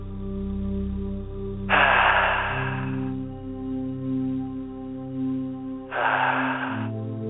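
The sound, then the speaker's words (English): Two deep breaths during a guided meditation, each a long airy rush lasting about a second, separated by a pause. A soft sustained musical drone plays underneath throughout. “So with your eyes closed and in a comfortable position, take 2 or 3 very deep breaths.”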